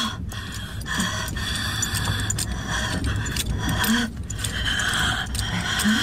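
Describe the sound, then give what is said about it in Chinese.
An elderly woman in a hospital bed breathes laboriously and gasps for air. Her rasping breaths repeat over steady background noise. “呼吸不顺是不是？”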